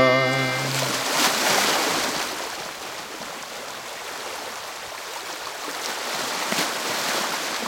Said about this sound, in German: Und vielleicht könnt ihr es hören, wo ich mich befinde. Ja, mit meinem Kasperstadtkanu auf der Alster.